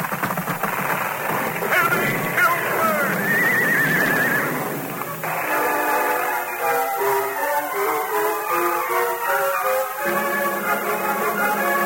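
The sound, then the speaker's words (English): Silver's muddy hooves thunder across a swaying, trembling wooden board bridge, a loud, sustained clatter with a shrill horse whinny rising over it partway through. “There was no hesitation for the masked man when the bridge was reached. Silver's muddy hoof thundered on the board. The bridge swayed and trembled.”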